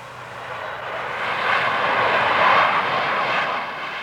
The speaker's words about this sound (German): Ist denn das ein Autobus? Ein Autobus? Nein, das ist ein Flugzeug.